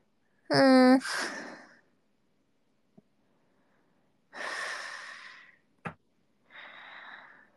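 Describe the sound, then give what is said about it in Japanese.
Mouth breathing: a few breathy inhales and exhales, the first with a voiced, sigh-like edge, separated by quiet gaps, with a small click between the later breaths. “やっぱ、口呼吸しちゃう。みんな鼻呼吸しないとダメだよ。なんかマスクしないと鼻、口呼吸しちゃうんだよ。”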